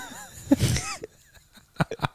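Harsh, bursting coughs come from a person in a coughing fit. A strong cluster sounds early on, and a few shorter, weaker coughs follow after a brief pause.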